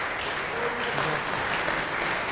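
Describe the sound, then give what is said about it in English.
An audience at a technical conference talk applauds the speaker, producing a thick, continuous wash of clapping that stays even and moderately loud throughout. “And a round of applause, please, for Remy, and have fun.”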